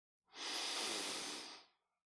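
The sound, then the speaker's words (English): A single deep inhale during a guided meditation, a steady, airy hiss that swells quickly, holds for about a second and a half, then tapers off, heard alone against silence. “Another deep inhale.”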